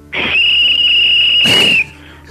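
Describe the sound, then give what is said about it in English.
A whistle is blown in one long, sustained blast, a shrill, steady high tone that holds for well over a second and stands out loudly on its own before cutting off. “He blew a whistle.”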